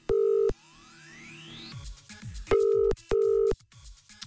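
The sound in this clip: Ringing tone of a telephone call to a listener in Neuchâtel: three short, steady, loud tone bursts, the first set apart from the other two, with a rising electronic sweep and busy clutter in between.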